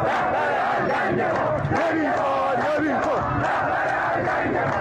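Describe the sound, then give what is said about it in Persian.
Protesters in Qom, Iran, chant loudly in unison during demonstrations over women's rights and the headscarf, producing a continuous, forceful roar of shouting voices. “اینجا قم است. صدای مردم معترض را از مرکز مذهبی نظام میشنوید.”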